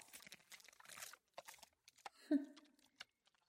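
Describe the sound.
Someone chews and crunches food, producing many irregular crisp, crackly bites and crunches of varying loudness, with brief pauses between bursts and no clear steady rhythm.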